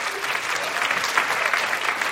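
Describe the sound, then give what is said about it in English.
Applause from a live audience at a talk about online dating: steady, dense clapping from many hands that holds at an even loudness throughout the short clip. “People here who've been online dating, can you applaud women, especially if you've been dating online?”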